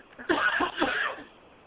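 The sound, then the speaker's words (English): Coughing from a person getting over the flu: a short run of rough, throaty coughs in close succession, moderately loud and heard alone, with no talk around them. “who is that coughing? That's me. I'm sorry.”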